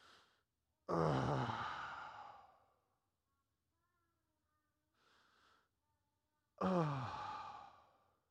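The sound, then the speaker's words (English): A voice imitates the deep groan Jesus may have made: two long, heavy, breathy groans that trail off. A quiet pause with a soft breath separates them. “Actually, the Greek word that is used here can also be translated groan. So maybe Jesus went like this.”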